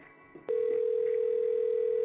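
The ringing tone of an outgoing telephone call: after a small click, a single steady mid-pitched tone starts and holds loudly to the end.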